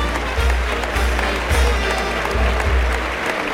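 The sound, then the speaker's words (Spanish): Crowd ovation in a bullring for Peruvian bullfighter Roca Rey as he comes out and unfurls his cape, a rough, continuous clapping with a few low thumps scattered through it. “Bueno, pues hay una ovación ¿eh?”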